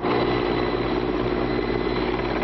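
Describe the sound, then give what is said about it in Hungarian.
Firefighting helicopters fly over a forest fire in central Turkey, giving a loud, steady, unbroken rotor and engine drone that fills the whole stretch without pause. “8 helikopter a levegőből, és több mint 100 tűzoltó a földről oltja az erdőtüzet Törökország középső részén.”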